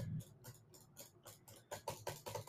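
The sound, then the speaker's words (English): Rapid computer mouse clicking while spamming clicks in a toast-making game: many quick, sharp clicks in an uneven burst, faint overall, with no voices. “I just need to spam click.”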